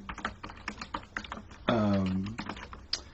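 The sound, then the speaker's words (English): Typing on a computer keyboard: many soft, irregular keystroke clicks in quick bursts, keeping up throughout at a fairly faint level. “I'm typing and trying to talk at the same time”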